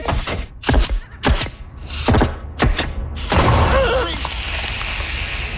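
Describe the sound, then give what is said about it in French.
A large, cumbersome early 20th-century hydraulic riveting machine starting up: several heavy, booming bangs and thuds in quick succession give way to a loud, sustained rushing, hissing roar. “je vais maintenant partir la grosse machine encombrante à poser les rivets du début du 20e siècle. OK, mais attention à tes jambes, le piston hydraulique part rapidement.”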